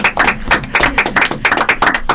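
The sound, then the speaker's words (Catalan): An audience applauding: loud hand clapping in a quick, uneven pulse of many sharp claps, with no voices. “Es poden aplaudir si mateixos, no? Un aplaudiment, sí. Vinga, va, un aplaudiment.”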